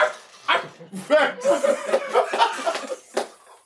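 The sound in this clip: A man's voice imitates a dog barking in a few short, gruff vocal bursts, broken up by chuckling and laughter.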